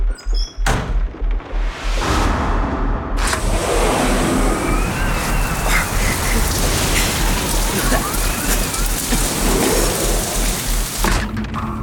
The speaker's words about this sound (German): du weißt schon, da draußen ist Sturm.